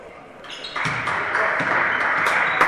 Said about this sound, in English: He's on the dribble.